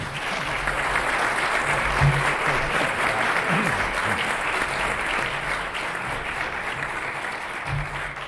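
An audience applauds to welcome the Treasury Secretary, a thick, sustained wash of clapping holding a steady level for about eight seconds.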